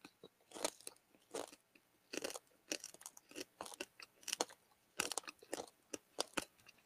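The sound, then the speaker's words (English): Someone bites into and chews a paper-thin wafer candy filled with small crunchy candies. Many sharp, irregular crunches and crackles come in quick clusters, separated by short pauses. “It tastes like that church wafer. It's like paperish. And then inside, it's got these candy. Little candies, and they're crunchy.”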